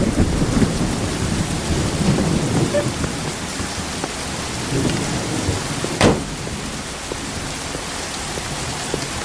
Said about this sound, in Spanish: Esta noche llueve.